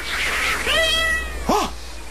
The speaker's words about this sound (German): Aber wenn es ein Kätzchen ist, ein kleines, dann muss es einen Besitzer haben.